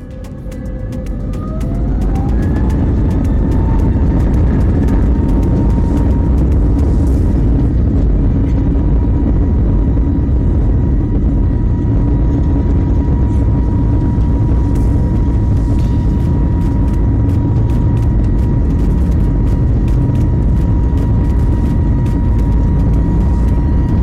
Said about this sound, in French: Le ciel est clair, la visibilité est bonne, le vent est nul. Paré pour le décollage.